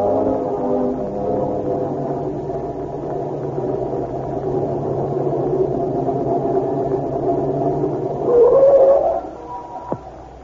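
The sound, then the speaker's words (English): A car engine drones steadily as the vehicle drives at night without its lights on. The low hum swells briefly near the end and is followed by a single sharp click. “But you're driving without any lights. Oh, Red, you'll get killed someday.”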